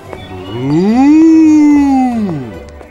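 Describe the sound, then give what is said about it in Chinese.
A bull lets out a single long, loud moo, its low pitch rising at the start, holding steady through the middle, then dropping away at the end. “走着走着， Billy 遇到公牛，公牛跟 Billy 说早安。”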